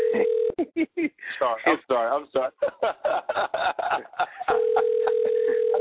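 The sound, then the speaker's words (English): Telephone call being dialed: a steady electronic line tone sounds at the start, gives way to talking and a little laughter, then returns and holds to the end. “I'm trying to call. I can hear it.”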